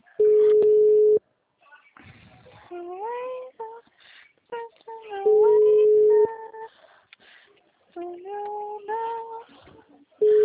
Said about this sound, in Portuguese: Tocou uma vez, eu atendi e deu.